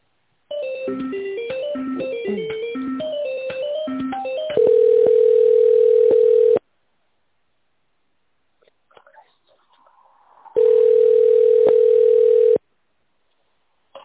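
Telephone tones while a call is transferred: a short run of electronic melodic beeps, then a steady, loud, mid-pitched tone lasting about two seconds, a quiet gap with faint noise, and a second identical two-second tone.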